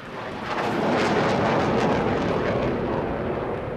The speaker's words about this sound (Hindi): आदेश पाते ही flying officer Sekhon ने अपने नेट विमान से टेक ऑफ किया।